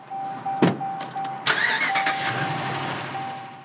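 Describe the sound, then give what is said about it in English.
A car in a residential subdivision, its engine cranking briefly and catching, then running steadily at a moderate pitch while a thin, steady tone sounds on and off. “Burgett and I drove around the subdivision where the survey was conducted.”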